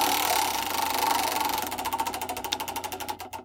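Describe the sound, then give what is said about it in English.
A prize wheel spins during a party guessing game, making a rapid ratcheting clatter of ticks. The ticks gradually slow and become more spaced and distinct toward the end. No one talks. “You pick one out, and we'll spin the wheel.”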